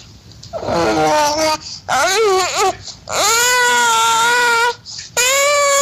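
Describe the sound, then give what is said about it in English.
A four-month-old baby babbles in four high-pitched vocal bursts separated by short pauses, the sounds wavering and sliding between cooing and cry-like wails. “Here's a 4-month-old child babbling.”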